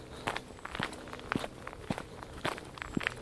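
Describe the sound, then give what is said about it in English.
Footsteps of people walking along a woodland path, forming a steady, unhurried series of soft crunching steps with light crackles between them, quiet and with no talking. “We're walking through the woods.”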